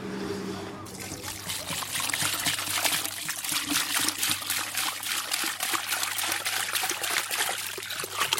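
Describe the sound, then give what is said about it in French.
Boiled water poured into sorghum flour already kneaded with water, then mixed by hand: a continuous splashing trickle of liquid starts after a brief pause and runs steadily throughout. “Je verse l'eau bouillie dans la farine que j'ai pétrie avec de l'eau juste avant. Je la mélange avec ma main.”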